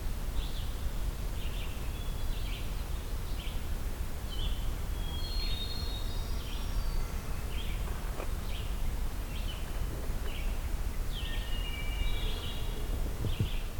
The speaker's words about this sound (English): Oven bird.